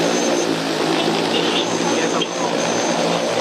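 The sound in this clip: Agricultural spraying drone taking off, its propellers producing a loud, steady, dense whirring buzz that holds evenly throughout.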